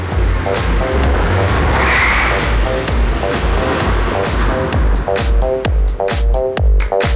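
A car speeds off with a loud, continuous engine roar and repeated bursts of squealing tires throughout, with no voices.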